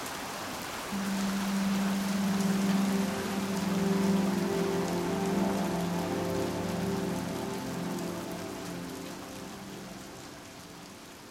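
Desert rain falling as a dense, even hiss of drops that holds steady throughout and eases slightly near the end.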